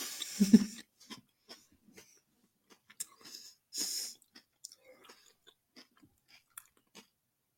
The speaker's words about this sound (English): Well, the top part tastes like Nutella.